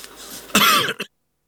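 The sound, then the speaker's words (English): A person coughs: one harsh, loud burst followed quickly by a shorter one, then silence. “Excuse me. Coughing bit.”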